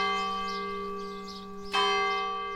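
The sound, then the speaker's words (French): Church bell ringing at night: sustained, shimmering metallic tones hum throughout, then one fresh strike sounds partway through and rings out in a long, slowly fading decay. “à ma surprise, j'entendais les cloches la nuit.”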